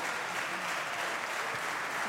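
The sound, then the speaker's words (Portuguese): The Chega party's parliamentary bench rises to applaud its leader: a steady wash of many hands clapping, with a voice speaking over it throughout. “E levanta-se a bancada do Chega para aplaudir o seu líder.”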